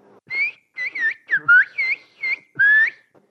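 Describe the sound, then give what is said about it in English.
Whistled Turkish asking for one kilogram of tomatoes: seven clear, high, gliding whistled syllables in quick phrases, some rising and some dipping in pitch, with the last one held longest, whistled alone without speech. “If I wanted to ask for 1 kilogram of tomatoes in Turkish, I'd say, Bir kilo domates lütfen. Which in whistled Turkish would be,”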